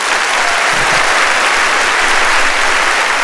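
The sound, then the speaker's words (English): Crowd applause as a sound effect: dense, steady clapping from a large audience, loud and unbroken from start to end. “that would be the wrong sound effect. Let me try that again. Okay. Okay. I was wondering why the crowd was applauding.”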